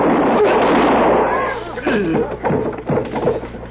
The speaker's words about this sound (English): You shoot that boy again, I'll blow your head off with a shotgun.